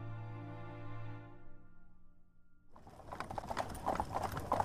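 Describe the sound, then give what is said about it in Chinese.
Hooves of a horse-drawn carriage clip-clop as it arrives, a quick, irregular run of sharp knocks that begins partway through and grows louder toward the end, after a sustained tonal sound fades away. “见马车抵达，洛明熙”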